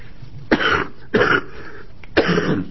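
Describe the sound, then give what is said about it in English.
Three sharp, harsh coughs during a formal committee meeting, evenly spaced bursts that each break off quickly, with no talk between them. “excuse me, I'm sorry, I'm sure that isn't a smoker's cough.”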